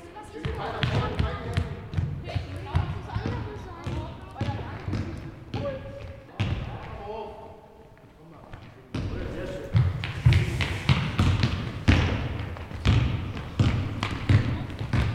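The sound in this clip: Basketballs bounce during a basketball club practice in a school gym: many irregular, sharp thumps overlap steadily throughout, with voices talking and calling underneath.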